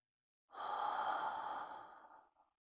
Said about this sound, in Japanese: すーっと息を吸うと、ゆったりする。